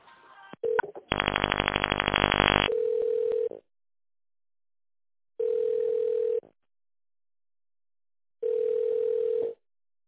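A telephone ringback tone plays while an office call is transferred to a purchasing department. A harsh buzzing tone comes first, then three long, steady, mid-pitched tone pulses separated by silent pauses.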